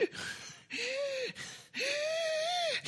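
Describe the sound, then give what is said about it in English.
A voice imitates a 14-year-old boy out of breath on a walk: several loud, strained, whining pants drawn in and out in quick succession. “You hear like he's going out of breath.”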